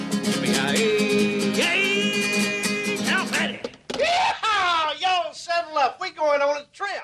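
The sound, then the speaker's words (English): A group of women squealing, with a string of short, high-pitched cries that swoop up and down in quick bursts during the second half, after a stretch of steadier voiced sound. “A group of women squeal.”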